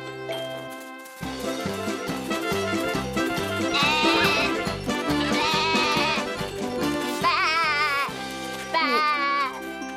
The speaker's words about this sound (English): Hello, my goats. Eat your fill while you can.